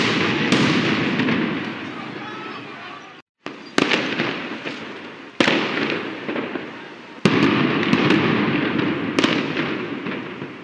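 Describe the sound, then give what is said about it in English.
Petrol bombs and tear gas canisters are launched during a riot in Athens, Greece, where about 25,000 protesters faced police after a deadly train crash. Several sharp bangs cut through a loud, continuous roaring din. “Those are the sounds of petrol bombs and launching tear gas canisters in Greece, reports Reuters.”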